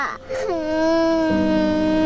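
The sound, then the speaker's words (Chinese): A child cries in a long, sustained wail. The pitch drops early, then holds steady and loud to the end. “别哭了。”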